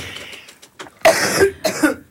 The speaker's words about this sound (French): quand je tousse, vous parlez pas